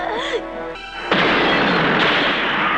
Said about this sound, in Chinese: 机灵的珍妮在爆炸时躲在沙发底下，才幸免于死。